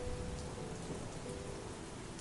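Rain falls in a soft, even hiss of countless droplets, continuous and unbroken throughout with no distinct individual events standing out.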